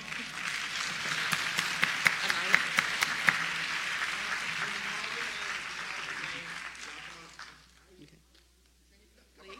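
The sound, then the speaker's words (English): Audience applause, a crowd clapping densely and steadily for about seven seconds with a few sharper claps standing out and voices mixed in, then fading to near quiet. “I want y'all to get all the applause.”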